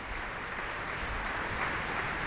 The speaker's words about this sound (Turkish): Alkışlar devam ediyor.